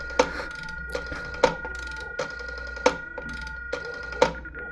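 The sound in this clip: A telephone ringing on the other end of a call, a steady tone cut by sharp mechanical clicks that recur at a regular pace, with no voices.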